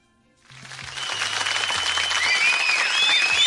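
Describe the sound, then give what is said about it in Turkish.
Applause from many people clapping begins after a brief silence and grows steadily louder into a dense, continuous patter. “bu 12 kişilik dev kadroya bir alkış göndermenin vakti geldi değil mi?”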